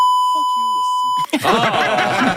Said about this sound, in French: Ça enlève un petit peu l'utilité du bip, si vous voulez mon avis.